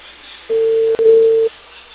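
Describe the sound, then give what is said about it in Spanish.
A telephone busy signal on an unanswered call: a single steady mid-pitched beep lasting about a second, with a tiny break midway, over faint line hiss and no talk. “No contesta, señora. Está ocupado.”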